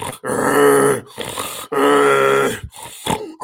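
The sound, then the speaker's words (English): A voice imitating snoring: two long, rasping, throaty snorts with shorter breathy grunts between and after them. “Anybody know anybody that snores like that? Right? That's called sleep apnea.”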